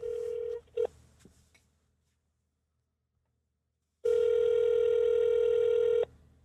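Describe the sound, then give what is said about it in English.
Telephone dialing tones on a call being placed: a held beep, then two short dial blips, a pause of silence, and a steady two-second ringing tone that cuts off abruptly. “I didn't realize this when I dialed his number. Anyway, so we give Mr. Jones a call, and this is what transpired.”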